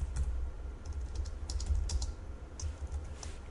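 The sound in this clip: Typing on a computer keyboard while writing code, soft irregular keystrokes clicking in a rapid, uneven stream, faint and steady with no talk over it.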